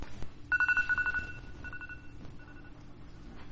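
A phone alarm ringtone plays as a few quick bursts of rapid, high electronic beeps, faint and with no one speaking.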